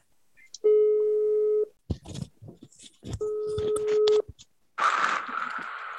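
Telephone tones as a phone call is dialled: two long, steady mid-pitched beeps separated by a stretch of clicks and rustling, followed by a burst of hissy noise at the end.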